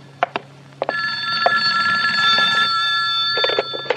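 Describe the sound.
A telephone rings with a single long, shrill, buzzing ring that holds steady and loud, preceded by a few faint clicks and knocks.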